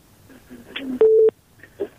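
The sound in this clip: A couple of brief electronic telephone tones sound as a radio call-in line connects, short, clear beeps with faint speech before and after.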